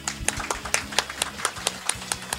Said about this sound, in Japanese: 皆様拍手でお迎えください。